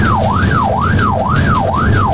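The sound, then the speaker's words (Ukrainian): An ambulance siren, switched on as the ambulance sets off, wails in a fast repeating rise and fall, about four cycles, loud and steady over the low rumble of the moving vehicle. “Дуже швидко разом із оператором сідаємо в карету швидкої допомоги. Водій вмикає сигнал і одразу рушаємо.”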